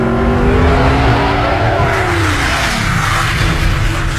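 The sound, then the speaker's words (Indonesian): A speeding car roars loudly and steadily while tires squeal, with engine tones sliding downward in pitch partway through as it brakes hard. “Aku tidak sempat menghentikan mobilku yang dalam kecepatan agak kencang. Dan aku menabraknya.”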